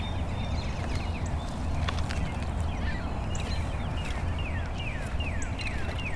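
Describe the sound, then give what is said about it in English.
A cardinal sings a run of quick, whistled, downslurred notes in several repeated phrases, clear above a loud, steady low rumble that lasts through the whole clip. “Yeah, there goes that cardinal.”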